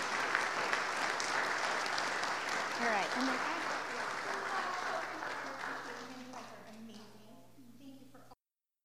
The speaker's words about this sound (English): So let's give them all a great big round of applause.